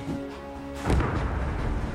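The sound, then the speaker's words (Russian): An artillery shell explodes beside a steam train in a film: a sustained tonal hum gives way to a single heavy, low boom followed by a rumbling wash of noise. “Дорогу освещают вспышки яркого света, а рядом с составом взрывается снаряд.”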